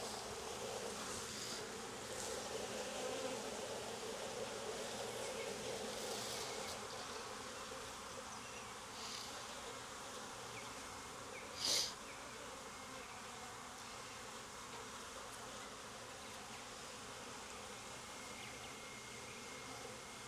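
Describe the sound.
Honeybees buzzing in an opened, smoked hive during an inspection of brood frames: a steady, dense drone of many wings that holds throughout, broken once near the middle by a brief sharp sound.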